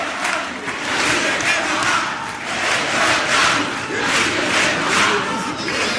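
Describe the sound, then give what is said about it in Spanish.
A theatre audience cheers during a carnival comparsa performance, a loud, sustained roar of many voices that swells and eases in waves. “Bueno, mira, mira, sonido de teatro.”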